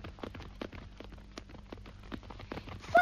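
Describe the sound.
Horse hooves clip-clop in a quick, even rhythm of many sharp, hollow knocks as a horse is ridden at a galop, continuing steadily throughout.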